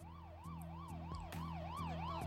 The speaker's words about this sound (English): As the ambulance starts taking you away